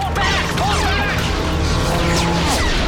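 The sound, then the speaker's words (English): A walker is hit and destroyed during a battle, producing a dense, loud, unbroken roar of crashing, smashing and metallic clatter that lasts throughout, without clear separate impacts. “The walker is hit and destroyed.”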